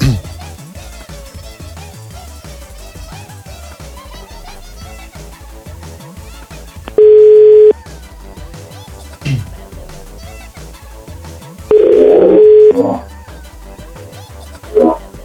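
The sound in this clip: Telephone call tones play while calling someone, cutting through loud ongoing music. A clean steady beep of under a second comes first, and a rougher tone of about a second follows later.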